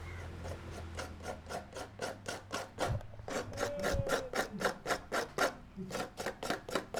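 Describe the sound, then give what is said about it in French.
Coconut being grated, heard as a long run of many regular rasping strokes in a steady rhythm, each a short dry scrape, with no talk. “Écoutez le bruit de la coco râpée.”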